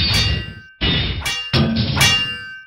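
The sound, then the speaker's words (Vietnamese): Swords clashing in a fight, a few sharp metallic clangs in quick succession, each ringing on with bright sustained overtones; loud and with no voices. “Tia lửa tung tóe, Mạnh Thiên Chính tay cầm kiếm thai đại chiến với Xích Phổ”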